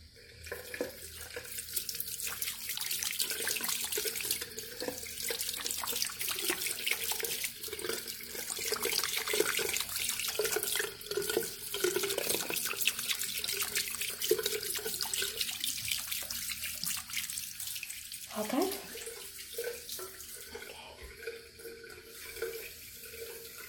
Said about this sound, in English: Wash your face.